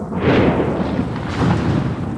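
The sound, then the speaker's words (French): Thunder from a storm with rain-laden clouds: a loud, rolling rumble that swells and stays broad and sustained throughout, with no voices. “L'orage. Des nuages chargés en pluie.”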